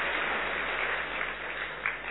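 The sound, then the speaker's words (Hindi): An audience applauds in a class, a steady, dense wash of clapping that stays even and somewhat muffled for a couple of seconds. “ताली बजाइए उनके लिए।”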